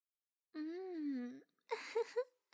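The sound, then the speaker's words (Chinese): Crying from one voice: a long, wavering, moaning wail held for about a second, then a short broken, sob-like vocal burst, both quiet and heard alone. “真是动听的哭声呢，让人按耐不住啊。”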